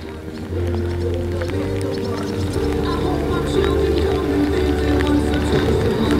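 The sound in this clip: A horse gallops in a riding arena, cantering large serpentines with lead changes at the center, a steady rhythmic drumming of hoofbeats heard under a talking voice.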